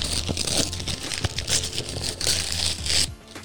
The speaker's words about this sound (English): Okay, I'm going to unwrap the gift. Everybody, get ready for a little ASMR.